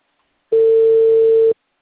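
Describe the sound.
A telephone line tone on a busy call: one steady, unbroken mid-pitched beep lasting about a second, heard alone with silence before and after.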